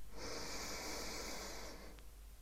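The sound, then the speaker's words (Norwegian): A single long, deep breath taken during a guided relaxation exercise: one steady, airy rush of breath that lasts under two seconds and stays fairly loud throughout. “puste godt inn. Og fylle deg med liv. Og slippe ut alt du ikke trenger på utpust.”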